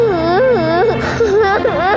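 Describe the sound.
A young child cries in loud, wavering, high-pitched wails and whimpers whose pitch bends up and down continuously, with a brief catch in the middle.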